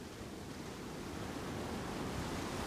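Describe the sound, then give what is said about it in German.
Sea waves surging in a steady, dense roar of surf that holds constant and builds slightly in loudness toward the end. “Und dann lauschen sie jenem Brausen, welches sich nähert. Sie lauschen dem Meer.”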